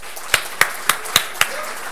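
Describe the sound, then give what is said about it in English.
Five sharp hand claps mark an audience welcoming a speaker onto the stage at a desert event. The claps are crisp and evenly spaced, with no voices and no sustained applause between them. “So please put your hands together and help me welcome to the stage Jay Anderson.”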